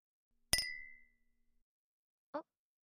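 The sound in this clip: A single glass clink in a toast gives a bright, ringing chime that decays over about half a second. After a pause, a brief voice sound follows.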